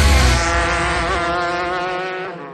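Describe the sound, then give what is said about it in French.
Go-kart engines race on the Loni karting track in the Ardennes, a loud, buzzing motor drone rich in overtones that holds a steady pitch and fades out at the very end. “Bienvenue au karting de Loni, la plus grande piste ardennaise pour adultes et enfants.”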